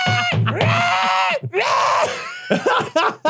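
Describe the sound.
A voice imitates the screech of an alien body-snatching pod person: loud, strained, sustained wailing that bends in pitch, broken by short breaks and ending in choppier yelps.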